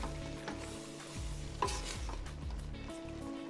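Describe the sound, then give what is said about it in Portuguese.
Quiet stirring as carrots are mixed into a Brazilian plantain stew (moqueca de banana da terra), with soft scraping strokes over a faint, continuous sizzle. “Vamos adicionar a cenoura. Misture levemente”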